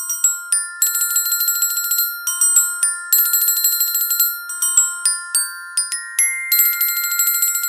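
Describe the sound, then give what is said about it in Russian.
A large brass handbell decorated with long colored ribbons is rung hard as a first school bell. It sounds as a bright, metallic jangle of many rapid strokes, continuous and fairly loud throughout, with no voices. “Она изо всех сил звонила в большой медный колокольчик, украшенный длинными разноцветными лентами. Так прозвенел первый школьный звонок для Эльвирыной старшей дочери.”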